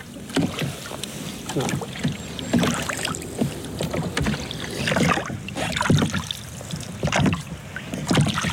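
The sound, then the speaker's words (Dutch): Hollow thumps, knocks and sloshing water as people climb into a small boat on open water, with wind buffeting the microphone; many irregular bumps and splashes continue throughout. “Nou, de boot maar in.”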